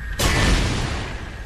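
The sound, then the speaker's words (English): A rocket is shot down and explodes in a video game. A single sudden, loud boom hits sharply, then a deep rumble slowly fades over the next second. “So I'm using Alt to shoot the rockets down.”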